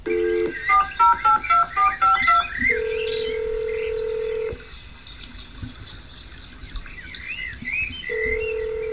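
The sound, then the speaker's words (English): Telephone keypad tones sound as a voicemail password is dialed: a quick run of short dual-tone beeps, then a long steady tone that stops, a quieter pause, and the steady tone again. “You dial your password and press pound.”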